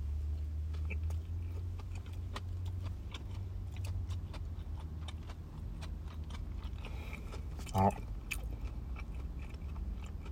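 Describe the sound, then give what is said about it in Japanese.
Someone eats a 7-Eleven vegetable mix sandwich with tomato and mayonnaise. Faint, soft chewing carries on steadily, with one sharper crunchy bite near the end. “トマトの部分がやっぱもう前方に集中しているような感じなんですけど、も仕方ないじゃ仕方ないんでしょうけど、じゃあ、いただきますね。”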